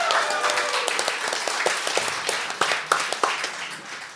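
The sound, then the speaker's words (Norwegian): An audience applauds to welcome a guest, with dense, steady clapping that thins slightly toward the end, where a few sharper individual claps stand out. “Så han fortjener en kjempeapplaus.”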